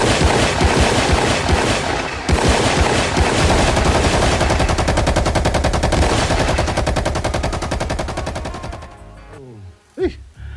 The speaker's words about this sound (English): bampa etse ma Afrika ba yana ka dithunya ba bolayana ka machine gun ba thuntshana e sa le bona president Arbona we must silence the guns.